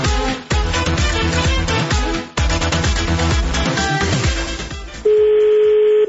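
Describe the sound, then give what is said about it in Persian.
Telephone dialing tones sound in quick bursts as a wedding hall is called, ending in a long, steady, loud tone. “و ما اومدیم تماس گرفتیم با یکی از این تالارا ببینیم که هزینه ها چقدره”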